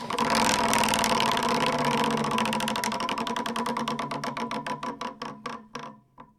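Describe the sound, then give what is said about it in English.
Rapid clicking of a spun board wheel, its pointer ticking against pegs many times in a fast run that gradually slows, with the clicks spacing out until the wheel stops. “So let me spin the board real quick.”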